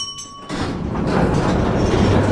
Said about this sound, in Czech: nasedáme do důlního vláčku a vyrazíme zpátky. Odjezd!